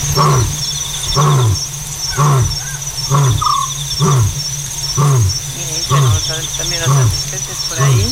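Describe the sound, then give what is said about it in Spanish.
A lion calls at night in a long series of deep, rhythmic grunting roars, many pulses repeating roughly twice a second, over a steady high chorus of crickets and insects. “El león tiene altavoz propio, decía Ramón Gómez de la Serna, una greguería. Y es verdad que parece que amplifica su llamada, que se estira ahí por el fondo de la noche y ahí ensancha el paisaje.”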